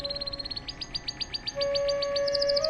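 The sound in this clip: A canary sings a fast run of bright, high chirps in an even rhythm, joined by a sustained whistled note and ending in a quicker, tighter trill.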